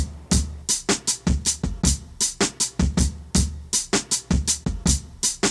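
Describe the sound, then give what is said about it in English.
A chopped-up drum sample taken from a 1969 song plays as a fast, loud string of crisp snare and cymbal hits over punchy low kicks. The pattern repeats in a tight, choppy rhythm throughout. “These drums are chopped up to sound like this.”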